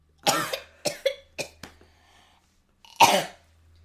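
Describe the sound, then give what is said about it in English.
Coughing from choking on saliva: a few sharp, harsh coughs in quick succession, a short silence, then one louder, rougher cough, with no talk. “I was choking my spit. You just failed at two necessities of life: breathing and swallowing.”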